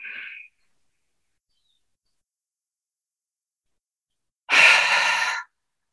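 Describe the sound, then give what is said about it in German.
A deep breath out and in during a guided breathing exercise: a short, soft airy breath at the start, then after a long silence a fuller, louder breath lasting about a second. “Tief und lange aus. Einatmen.”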